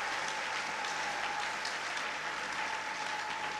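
A church audience applauds during a service, a dense, even patter of clapping held at a steady level throughout with no voices over it.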